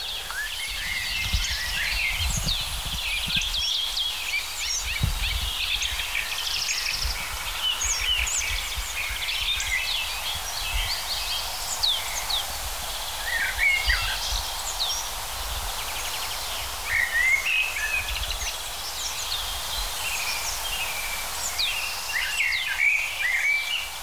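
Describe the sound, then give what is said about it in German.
Springtime birdsong of a common blackbird, with many chirps and trills scattered through a steady, faint background hiss. “Natürlich eine der Hauptdarstellerinnen, die Amsel,”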